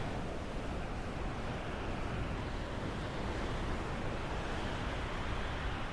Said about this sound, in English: Because you didn't try to navigate around that wave, you went through it, even though it knocked you off course.